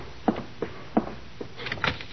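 A front door being answered and opened: a few sharp thuds and knocks, then a cluster of lighter clicks and rattles near the end, fairly quiet and with no voices.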